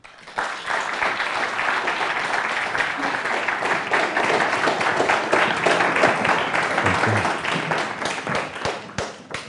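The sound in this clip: An audience applauds to welcome a visiting writer at Colgate University, a dense, steady wash of many hands clapping that holds for about nine seconds before thinning slightly at the end.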